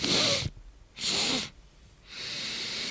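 A person tries out a breathing technique, pushing out three forceful, hissing breaths: two short, sharp bursts followed by a longer, steadier exhalation, each loud and noisy with quiet gaps between.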